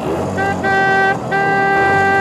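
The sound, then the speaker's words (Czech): An old car gives two long, steady horn toots separated by a brief gap as it starts to drive off, with a continuous rumbling engine-like noise underneath. “Rychle, ta čertovská mašina už chce jet, honem si nasedni!”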